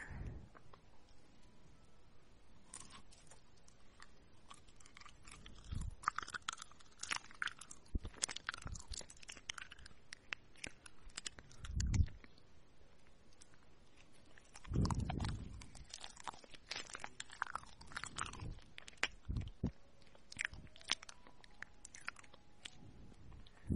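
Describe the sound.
Faint, irregular crunching and chewing as someone is fed sweet crunchy food, with many small bites spread across the whole stretch and a few louder crunches.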